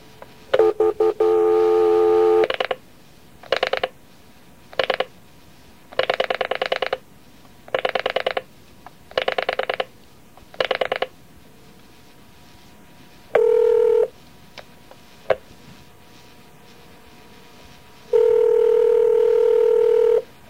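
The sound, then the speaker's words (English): Touch-tone beeps from a telephone number being dialed sound loudly as a series of electronic tones of uneven length, separated by pauses. The sequence ends in a longer steady tone. “unless you just want to dial it right now. Okay, I'll try it right now”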